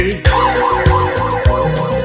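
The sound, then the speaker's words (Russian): A wailing emergency siren rises and falls repeatedly in a steady cycle, loud, set over a thudding bass beat in a song. “а где-то в столице все воют сирены.”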